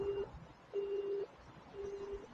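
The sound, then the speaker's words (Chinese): Faint telephone tones from a 1987 Cantonese City Hunter cartoon, the beep before a voicemail message: three steady mid-pitched beeps, evenly spaced, with the last slightly softer. “你所打嘅电话暂时未能接通，请你喺 B 一声之后留低你嘅口信。”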